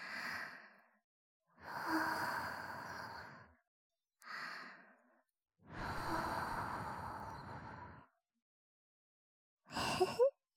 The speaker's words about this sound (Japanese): ほな、お耳ふうふうですよ。